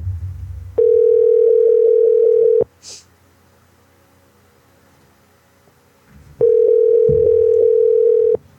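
Telephone line tones sound as a prank call to a gas station is placed: two long, steady buzzing tones of about two seconds each, separated by a quiet gap with a brief faint click.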